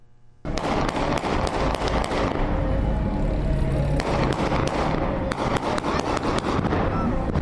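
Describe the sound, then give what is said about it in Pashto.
Celebratory aerial gunfire crackles through Kabul city streets during an anniversary commemoration. Dense, rapid volleys of sharp bangs and pops keep up without a break, loud and continuous throughout. “دا په کابل ښار کې د شهید اونۍ د احمد شاه مسعود د ترور د شپړسم تلین د نمانځنې ورځې په مناسبت د هوایي ډزو آوازونه دي.”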